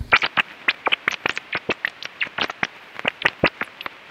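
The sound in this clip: Rapid chirping from a male rat being tickled by fingers moving quickly over its body: a dense run of many short, sharp chit-like calls in a fast, uneven rhythm, fairly loud, with no talk.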